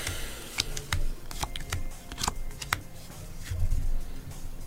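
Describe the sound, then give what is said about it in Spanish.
Tarot cards being shuffled and drawn: many crisp, sharp flicks and snaps in an irregular run over a steady soft rustle, with no talking. “Vamos a sacar cuatro, cinco cartas.”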